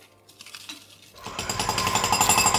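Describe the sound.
Construction site noise with a jackhammer: a quieter mechanical rattle gives way after about a second to loud, fast, rhythmic pounding that continues to the end.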